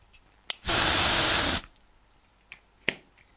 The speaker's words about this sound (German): Es war das Zischen zweier Sprayflaschen.